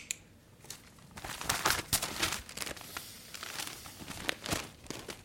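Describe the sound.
Newspaper pages rustling and crinkling as the paper is handled to do a crossword, soft irregular crackles that swell into louder crumpling bursts in the middle, with no voices.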